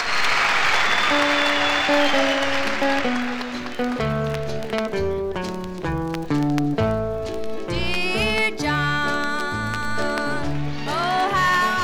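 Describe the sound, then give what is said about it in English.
Applause welcomes country singer Skeeter Davis onto the stage: steady, loud clapping from an audience runs throughout, with band music playing over it. “How about a nice welcome for none only than Miss Skeeter Davis, ladies.”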